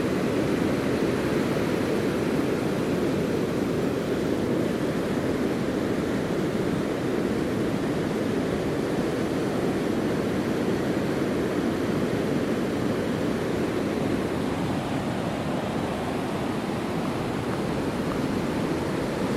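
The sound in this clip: Waves of the incoming tide wash against the coast in a steady, continuous roar with no distinct breaks between waves and no voices.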